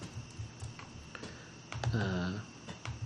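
Scattered computer clicks while opening an online article: a few light, irregular taps and clicks, with a brief warbling tonal sound partway through.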